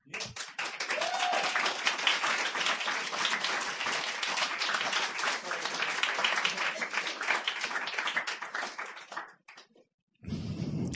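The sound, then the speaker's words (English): Sustained audience applause for a performer at a reading: dense, steady clapping from many hands that dips briefly near the end before sound resumes. “Give her a hand.”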